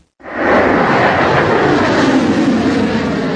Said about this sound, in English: A missile shoots into the sky, leaving a long white tail behind.